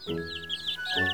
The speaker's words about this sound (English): I see my little chicks taking a shine to you.